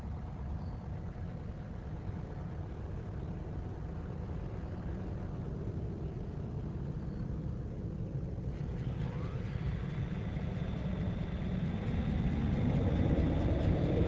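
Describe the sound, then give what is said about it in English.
Steady low, broad roar of the space shuttle Discovery coming in for a landing, holding even and then swelling louder over the final seconds, with no talk. “All systems looking good as Discovery comes in for a landing.”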